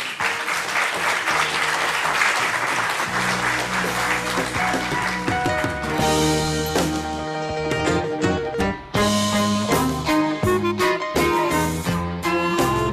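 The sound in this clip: Sustained audience applause for speakers at a public talk in Lille, a dense, steady wash of clapping, with music playing underneath that becomes more prominent in the second half.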